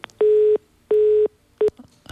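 Telephone busy tone after a call line disconnects: three loud, steady mid-pitched beeps, the first two long and evenly spaced, the third shorter, clean and without voices.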